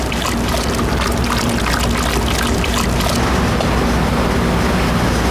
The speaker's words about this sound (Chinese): 窍门再加入热水，将葡萄糖和鱼胶融化于80摄氏度的水中，再加入榴莲肉搅拌均匀。